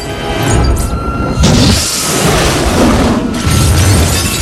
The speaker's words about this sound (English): It engulfs them all in a fireball which blows out from the upper windows, destroying everything in its path.